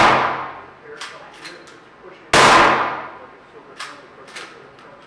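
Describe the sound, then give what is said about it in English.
Weapons test-fired in a forensic gun lab give two loud, sharp gunshots, each with a long ringing decay, and a few fainter metallic clanks between them. “This is the gun lab where they test fire hundreds of weapons a year for crimes ranging from gang murders to cattle killers.”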